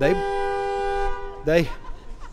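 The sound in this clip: A single steady car horn blast from a brand-new car lasts about a second, with people talking just before and after it.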